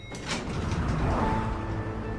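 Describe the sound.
An elevator door slides along its track, a smooth mechanical rumble with a faint whir that holds steady for about two seconds before easing off slightly.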